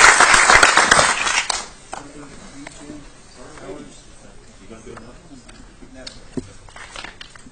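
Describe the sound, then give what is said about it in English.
An audience bursts into loud applause at an evening event. The clapping fills the first couple of seconds, then quickly dies away, leaving quieter murmuring voices. “ladies and gentlemen, please give them a round of applause.”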